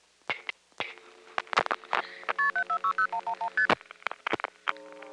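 Telephone keypad tones ring out as a seven-digit number is dialed: a rapid run of steady dual-tone beeps, evenly spaced and loud, framed by scattered clicks and short bursts before and after.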